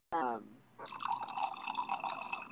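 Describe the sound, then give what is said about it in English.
A drink is poured into a glass with a steady splashing, gurgling rush of liquid. A brief voice-like tone comes just before the pour. “well, that sounds really good. Didn't it? Filling up my glass.”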